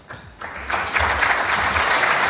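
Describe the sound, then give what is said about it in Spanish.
Modest applause for the attorney general at a formal judicial ceremony, a steady crowd clapping that starts sparse, fills out within a second and continues evenly at moderate loudness. “El fiscal general del Estado recibió un aplauso modesto.”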